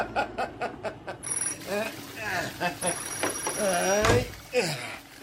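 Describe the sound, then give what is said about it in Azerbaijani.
A telephone rings with a high, thin electronic tone, one short ring and then a longer one, heard under people talking. “O telefona cevap ver.”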